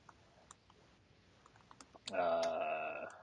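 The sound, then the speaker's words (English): Sparse taps on a computer keyboard, a few soft, separate clicks at an uneven pace, followed near the end by a louder voice. “I just typed Star Wars Squadrons. Squadrons Oculus.”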